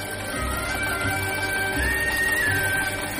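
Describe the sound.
A sewing machine runs in a home sewing workshop in the village of Abbasiyeh, a steady mechanical whirr with soft, regular low thumps repeating about twice a second, moderately loud and continuous.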